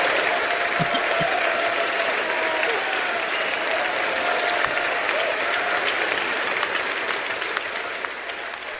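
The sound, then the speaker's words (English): Members of the House of Representatives, Democrats and Republicans, applaud Steve Scalise's return in a raucous welcome. The clapping is dense and sustained throughout and eases slightly toward the end. “Louisiana's Steve Scalise, made his way back to the House of Representatives where he got a raucous welcome from his colleagues, Democrats and Republicans.”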